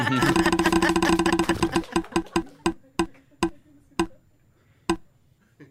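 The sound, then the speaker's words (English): A prize wheel spins during a quiz game, its ticking fast and dense at first, then slowing into sparse, sharp clicks as the wheel winds down and stops. “Let's spin the wheel again.”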